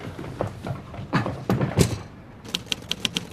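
Typing on keys: a few heavier, uneven thumps and knocks come first, then a quick run of sharp, evenly spaced clicks. No one speaks.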